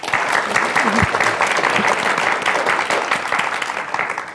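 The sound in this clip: Loud audience applause welcoming a speaker at a town hall forum on immigration reform in Houston, dense, continuous clapping that holds steady for the whole stretch and barely fades at the end.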